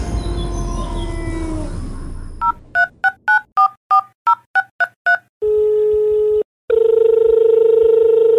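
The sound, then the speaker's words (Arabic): Keypad tones as a telephone number is dialed for a call: a quick run of many short dual-pitched beeps, then a long steady tone, a brief break and another sustained tone. A loud noisy bed fades out before the dialing starts. “ولكن الآن دعونا نتصل بس السيدة يارا”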